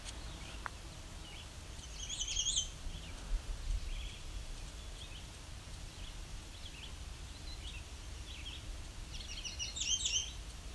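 Bird song in two short, high chirping phrases, one early and one near the end, faint over a steady background hiss.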